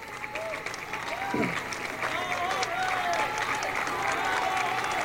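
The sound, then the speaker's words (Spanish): Audience applause at a gathering of community communicators in Caracas, Venezuela. The clapping swells and holds as a steady, dense roar while a person keeps speaking over it. “Jorge Márquez, que le doy un gran aplauso.”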